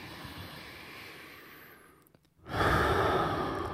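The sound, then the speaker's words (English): Deep breaths during a guided relaxation exercise, inhaling and then exhaling through the mouth. A long, airy breath fades into a brief pause, then a louder, fuller breath follows, with no talking. “Inhale. Exhale through the mouth. And again.”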